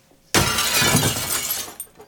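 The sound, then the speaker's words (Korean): A glass door shatters in one sudden loud crash, followed by a dense spray of breaking and falling shards that keeps going before fading out quickly. “유리문이 산산조각 나면서”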